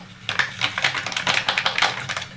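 A fork whisks four egg yolks and a 60-gram packet of grated parmesan in a bowl, making a fast, steady run of many light clicking taps that repeat at an even rhythm.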